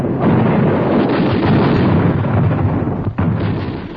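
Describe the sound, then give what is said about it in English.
Machine gun firing in a field demonstration: a loud, dense, continuous rattle of rapid shots that barely lets up, with a brief dip near the end. “One of my employees could operate the gun in action, showing the men in the field just how this machine gun operates in action.”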